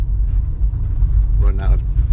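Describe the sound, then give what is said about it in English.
A Chevy car rattling and rumbling along a rough paved road in Presidio, with loud, steady low road and engine noise and a voice speaking briefly over it. “I don't know if you can hear our car rattling in the roads. Even the paved roads aren't very good.”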